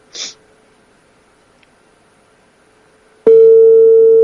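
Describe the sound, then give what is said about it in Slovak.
Ringback tone while calling a number back: a brief breathy noise, then near silence, then a loud, steady, mid-pitched tone begins abruptly and holds to the end. “Zvoní. Cingilingi bom.”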